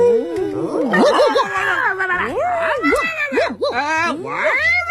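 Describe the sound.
A voice imitates a wolf howling urgently, repeating quick yelping howls that swoop up and down in pitch in an agitated rhythm.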